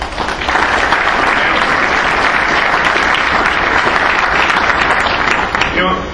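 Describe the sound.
Loud, steady applause from an audience welcoming a baseball executive as a speaker, a dense wash of clapping that fills the whole stretch and eases slightly at the very end.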